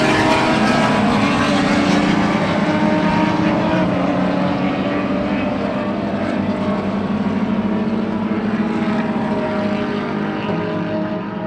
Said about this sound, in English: pace car's in, so I think we're going to do a restart here, so it's about to get loud, hopefully.